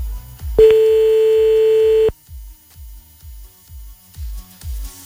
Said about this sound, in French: Enfin, si ça décroche un jour, évidemment. Allez, ça ne décroche pas.